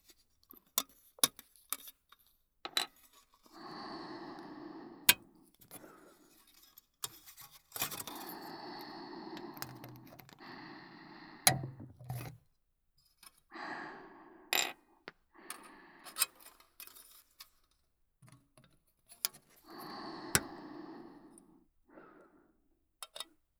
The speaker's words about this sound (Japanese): こっちは細かい部品が多いので、切る音が多めです。